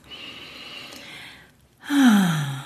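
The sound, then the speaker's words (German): A deep breath: a soft, airy inhale, a brief pause, then a louder sighing exhale whose voiced tone drops lower as it fades. “Und atme dazu erstmal tief ein und aus.”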